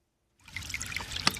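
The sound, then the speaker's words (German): Faint trickling and babbling of a small brook near its spring in the Fichtelgebirge hills, a steady, quiet watery patter that begins after a moment of silence. “Anfangs plätschert die Eger noch als Bach leise dahin.”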